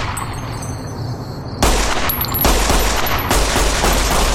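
Gunfire in the video game Fallout: New Vegas erupts after a quieter opening, a loud and dense volley of shots that keeps going to the end.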